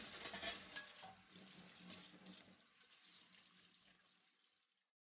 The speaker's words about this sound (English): She'd never washed up before. Washing up was fun.